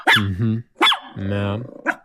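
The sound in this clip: A dog barks and grumbles in a few drawn-out, tonal vocal bursts, loud and alone, with no other sounds.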